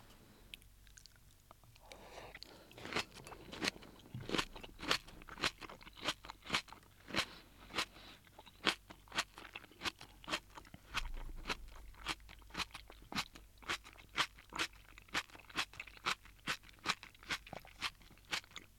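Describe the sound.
Crunchy chewing of napa cabbage cooked in a butter and soy milk hot pot soup. Many steady, rhythmic crisp crunches follow one another with no voices.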